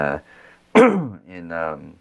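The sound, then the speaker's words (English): A single sharp cough, close to the mic, bursts out with a harsh onset and a short voiced tail. It falls between brief stretches of a man's speech. “you probably have to edit that cough out.”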